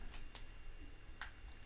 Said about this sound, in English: It's very hard to type stuff into Wikipedia while lying down.